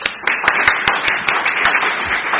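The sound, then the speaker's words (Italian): Audience applause welcoming a speaker at an evening public lecture: dense, steady clapping with individual sharp claps standing out in a quick, regular rhythm throughout. “Allora, lo ringraziamo e diamo il benvenuto con un applauso.”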